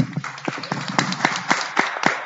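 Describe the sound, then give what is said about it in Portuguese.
Scattered clapping in a city council chamber, a handful of sharp claps landing at an uneven pace rather than a full ovation, at moderate loudness. “Quero agradecer ao Chiarelli, uma salva de palmas, eu peço.”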